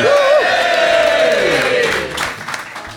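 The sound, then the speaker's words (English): Live audience cheering, whooping and clapping at a Fulham FC fan show in the Half Moon pub, Putney; loud rising whoops and sustained crowd noise for about two seconds, then fading into scattered claps and murmurs. “welcome to another show in front of a beautiful live audience here at the Half Moon Putney.”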